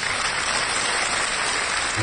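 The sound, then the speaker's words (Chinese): Warm applause fills a meeting hall as a gathering cheers a new people's government. Dense, even clapping runs unbroken as a steady wash for the whole stretch, moderately loud, with no distinct single claps or voices standing out. “话音一落，会场响起了热烈的掌声”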